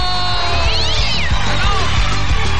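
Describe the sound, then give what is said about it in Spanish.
A kitten meowing, a few wavering high cries over a loud, steady rhythmic thumping beat with a faint voice in the mix. “Señoras y señores, ha ganado el gatito, cuchito, cuchito, cuchito, cuchito, cuchito.”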